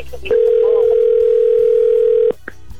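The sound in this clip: Telephone ringback tone of an outgoing call: one steady, loud, pure tone lasting about two seconds that starts and stops abruptly.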